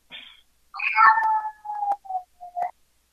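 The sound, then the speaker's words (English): A cat meows several times in short, bright, wavering calls of uneven length, loud against silence, with the second call the longest and the last ones clipped and brief. “the cat. Can't believe you brought that cat.”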